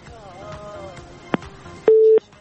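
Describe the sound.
Telephone tone on a studio call-in line after the caller disconnected: a couple of sharp clicks, then one short, steady, loud beep, with faint murmuring earlier.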